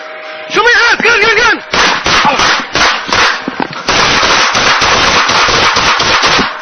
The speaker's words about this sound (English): Shots fired